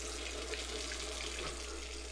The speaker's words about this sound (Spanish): Si no cerrás la llave mientras lavas los platos o te cepillas los dientes, estás desperdiciando el agua